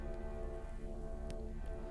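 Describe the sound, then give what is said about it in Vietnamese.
Light rain falling, a dense, steady hiss of drops that holds at an even level throughout, with a sustained droning tone running beneath it. “Mưa rơi phẳng phất”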